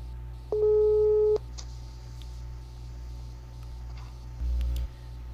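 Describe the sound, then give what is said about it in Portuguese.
Telephone line tones as a call is dialed: a steady, buzzy tone lasting under a second, then a shorter one a few seconds later, over a constant low hum. “Vamos lá, vamos dar uma ligada aqui.”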